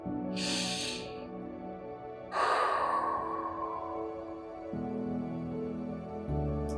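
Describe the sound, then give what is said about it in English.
A deep breath is drawn in and then let all the way out: a short, airy inhale followed by a longer, hissing exhale, both over a soft, sustained background drone. “Let's take a deep breath in now and breathe it all the way out.”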